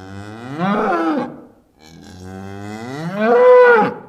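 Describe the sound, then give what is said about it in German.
A cow moos loudly and forcefully from inside a stable, two long, deep bellows that each rise and fall in pitch, the second louder and longer than the first. “muhte es laut und heftig.”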